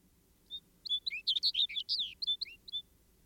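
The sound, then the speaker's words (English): A snowbird, or junco, sings a warbling song: a quick run of many high, sweet chirping notes, clear over a quiet background. “Who's heard the snowbird sing? Yet he has a lip-sing warble very savory to the ear.”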